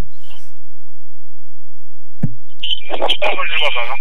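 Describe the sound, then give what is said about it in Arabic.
A click as a caller's line connects on an Arabic-language radio call-in show, followed by a voice speaking over a thin, narrow telephone line. “مستقبل اتصال ونقول ألو ألو.”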